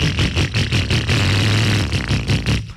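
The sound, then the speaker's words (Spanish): A motorcycle engine runs with a rough, mid-pitched drone that throbs in uneven revving pulses at the start and end and holds a steadier hum through the middle. “Si su moto suena así,”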